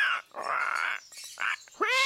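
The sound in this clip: A house cat is being called down from a high spot near grapevines. Several faint bursts of noisy, rustling sound come first, then the cat gives a short, clear meow at the end.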